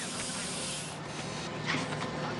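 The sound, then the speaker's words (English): A machine strips branches off a log, making a rough, continuous rasping and grinding scrape. The noise is fairly faint and even, with only small swells. “A machine strips branches off a log.”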